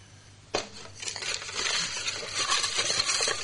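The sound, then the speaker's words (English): Continuous rustling and clatter of a bucket being stirred for a fruit-and-vegetable prize draw, starting sharply after a brief quiet and building into a steady, busy churn with no talk. “I'll grab the bucket and give it a good stir and see who's lucky.”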